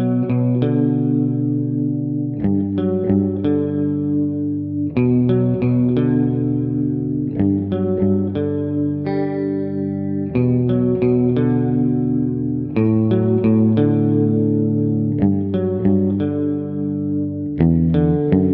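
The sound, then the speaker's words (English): A bleak, desolate heavy metal riff on distorted electric guitar: loud, sustained chords with a chorus-like shimmer shift in a slow, steady pattern, with short pauses between phrases and no voices. “I think that riff is so Hetfield. It has this kind of Hetfield landscape to it, this kind of desolate hopelessness to it”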